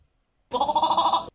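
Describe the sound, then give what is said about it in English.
A goat bleats once in a single loud, wavering cry lasting under a second, heard alone after silence. The bleat was judged real rather than a human imitation during a goat-sound guessing game. “It did, and it sounded like goat number three, so I'm going with real goat.”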